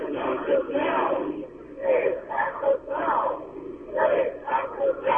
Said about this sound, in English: people are chanting for safe access here in Los Angeles.